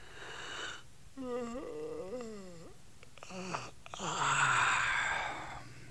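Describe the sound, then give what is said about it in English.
A sleepy man yawns in a long, drawn-out vocal groan that slides and wavers in pitch, ending in a broad, breathy exhale. “He was sort of feeling sleepy. He yawned.”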